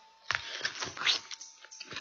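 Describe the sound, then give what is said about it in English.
Someone bites into a plum-like fruit: a run of crisp, wet crunching and chewing noises in quick, uneven bursts, fairly quiet and with no talk. “I am taking a bite of each fruit. I have become very fond of these fruits while I have been on Tana.”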